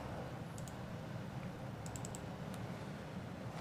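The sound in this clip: Button clicks on a device: a few faint, sharp clicks over a steady hiss, including a quick cluster of four in the middle.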